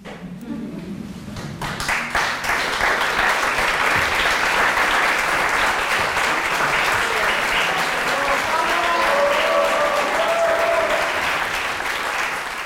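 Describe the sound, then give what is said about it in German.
An audience applauds at the close of a Shakespeare evening of recitation, baritone song and clavichord. The clapping swells over the first two seconds into a loud, dense, sustained ovation of many hands that holds steady to the end. “Ehe wir uns trennen, klatscht erst Beifall unserem Stück.”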